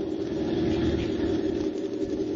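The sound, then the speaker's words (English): A car engine roars as the car is driven fast and recklessly through the Indiana countryside. It makes a steady, continuous low rumble with a broad hiss, with no pauses and no voices. “Hour after hour, he raced his car through the Indiana countryside, stopping only for gas. He drove recklessly with fear in his eyes.”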